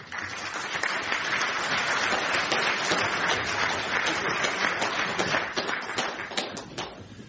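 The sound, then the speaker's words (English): Sustained applause from a seated audience at a panel discussion on the United Nations, dense steady clapping that holds loud throughout and thins slightly near the end, with no voices over it. “Please join me in welcoming Ian Williams.”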